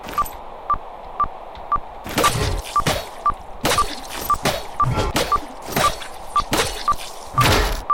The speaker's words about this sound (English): get close to the training dummy and press B to land a shield bash